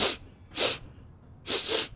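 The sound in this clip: A voice imitates a young man with a cold sniffling: three short, breathy, hissing sniffs, the last one longer, soft and heard alone.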